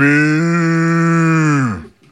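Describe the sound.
A voice imitates a cow's moo with one long, loud, low sustained tone lasting about two seconds that drops in pitch as it fades out.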